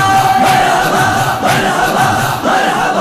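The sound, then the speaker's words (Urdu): A crowd shouts religious slogans together at a Mawlid celebration, loud massed voices rising and falling in a few rough, chant-like waves with no single voice standing out. “محفل سجاؤ ناتے سناؤ نعرے لگاؤ نعرے”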